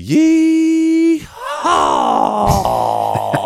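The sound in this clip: A voice imitates a yeehaw call: a loud, sustained steady 'yee' gives way to a lower, drawn-out 'haw' that trails off into short breathy gasps at the end of the exhale.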